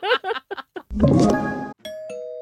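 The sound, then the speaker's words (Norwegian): A doorbell chime rings near the end with sustained clear tones. It follows a brief voice and a louder, noisy passage. “Ikke løp til døra, det ringte ikke på.”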